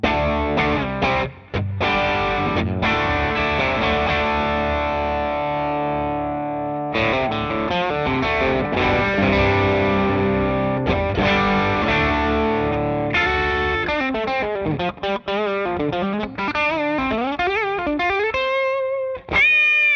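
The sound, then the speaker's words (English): Electric guitar on the bridge pickup through a Maxon OD808 overdrive pedal gives a thick, gritty, sustained tone. Ringing chords give way to choppier playing and bending single-note lines near the end, with no talk. “Now, let's move over to the Maxon OD808, and sounds like this on the bridge.”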